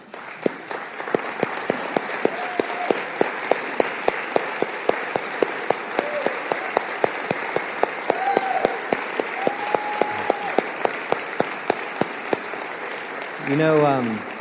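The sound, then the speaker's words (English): A church audience stands and applauds, producing dense, sustained clapping with sharp claps standing out throughout. A voice speaks over it, and the noise swells briefly near the end. “I want everyone to stand and give an applause to Miss Carolyn for”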